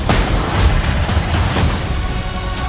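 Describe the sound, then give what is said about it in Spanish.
Gunfire in an action scene where fighters are being chased: a dense, loud wash of overlapping shots and booms with a few sharper cracks standing out. No one speaks. “Nos persiguen, a vosotros también. Disparad.”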